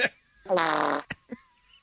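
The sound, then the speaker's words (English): A single loud, buzzy fart lasting about half a second. It holds a steady, vibrating low tone, and a couple of short, faint sounds follow it. “The sound of that fart.”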